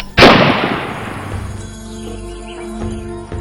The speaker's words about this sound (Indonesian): Namun karena diketahui membawa senjata, akhirnya Belanda pun menembaknya.